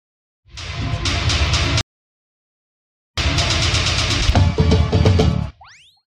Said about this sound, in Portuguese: Vamos lá, roda a vinheta, vai!